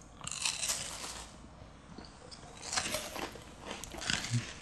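Crunchy bites into a layered caramel, wafer and milk cake, followed by chewing: a few crisp, crackling bursts that come in short clusters, fairly faint and with no talk over them.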